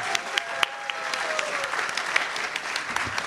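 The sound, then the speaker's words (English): Applause from an audience welcoming a guest at a live show in Melbourne: steady, dense clapping that holds for about three seconds, with a few sharper claps standing out. “So everyone, please put your hands together for Trey.”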